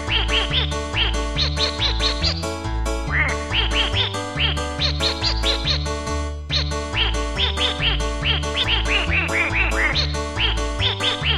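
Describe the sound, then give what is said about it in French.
Duck quacks play as a solo tune inside a French polka-style pop song. Many quick, pitched quacks follow a melody over a steady, bouncing bass beat, with no singing during the passage. “Solo de canard.”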